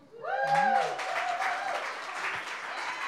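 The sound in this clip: An audience at a live storytelling event applauds to welcome the next storyteller. A voice calls out as the clapping swells, then a loud, even burst of applause carries on steadily to the end.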